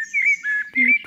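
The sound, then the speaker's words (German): Common blackbird song: a few bright, fluting whistled phrases with short pauses between them, clear and fairly loud, with no talk. “Natürlich die Amsel. Ja, so singt sie uns morgens ins Ohr.”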